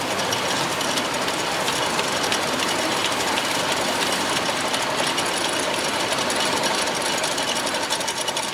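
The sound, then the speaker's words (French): Two identical tube-making machines on a drug production line, each turning out about 350 tubes a minute, clatter in a rapid, dense, continuous mechanical rattle that stays loud and even throughout. “Voilà, donc nous avons ici deux machines identiques. Chaque machine produit à peu près 350 tubes à la minute, ce qui fait à peu près un tube toutes les 5 à 6 secondes, enfin 6 tubes pardon, toutes les secondes.”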